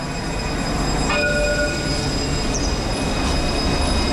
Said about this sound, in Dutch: Nou, opnieuw de tram in